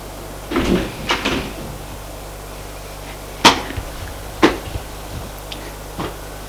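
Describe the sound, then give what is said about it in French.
An apartment door is unlocked with a key and opened. A few sharp clicks and knocks of metal and wood come in short clusters, separated by quiet pauses. “Il la fait rentrer dans son appartement. Il ouvre avec sa clé parce qu'il pense que la bonne n'est pas là.”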